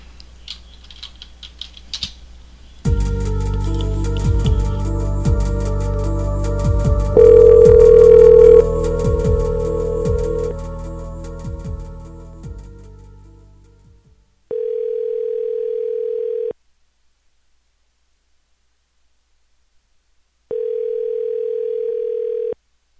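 A telephone call is placed: a stretch of rumbling, clattering handling noise gives way to two identical steady electronic ringing tones, each about two seconds long, separated by silence.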